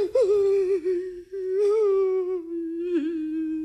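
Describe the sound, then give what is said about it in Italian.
A son cries in desperate lament with one sustained, wavering wail. The mournful voiced tone dips and swells but stays at a fairly steady pitch throughout. “Oh figlio, perché piangi? Perché questi lamenti disperati?”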